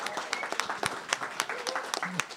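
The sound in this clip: Audience applause welcoming a guest, a dense patter of many hand claps with a few louder ones standing out, voices mixed in.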